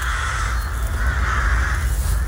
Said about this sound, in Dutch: Roekenterreur, mogen we gerust zeggen in Heerenveen. En bewoners proberen van alles om de vogels te verjagen